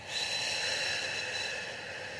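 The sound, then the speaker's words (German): A long, even exhale through slightly open lips during a breathing exercise. It makes a soft, airy hiss that holds steady for about two seconds and fades a little at the end. “Und ausgeatmet wird durch die leicht geöffneten Lippen.”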